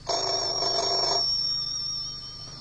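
Telephone ringing: a bright, buzzy electronic ring with a rich chiming cluster for just over a second, after which a thin high tone lingers and slowly fades over a low hum.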